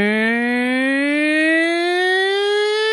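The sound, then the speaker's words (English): A human voice imitates the sound an Overwatch character's ability makes when placed in the video game: a loud, sustained, siren-like buzzing hum that slowly rises in pitch throughout. “There's this video game called Overwatch I play a lot. And there's this one character, when they put their special thing down, it makes a sound like this.”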